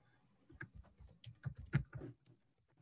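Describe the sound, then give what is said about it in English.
Typing an answer on a computer keyboard: a quick run of many soft, irregular key clicks lasting about two seconds, then quiet. “So let me type my answer in.”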